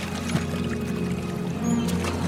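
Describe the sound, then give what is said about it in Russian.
Water splashes and trickles as a rowing boat approaches a barge anchored on calm sea. The wash is continuous and fairly soft, over a low steady hum, with no talk. “На тихих волнах, почти неподвижно, на якоре стоит баркас. К судну подплывает лодка.”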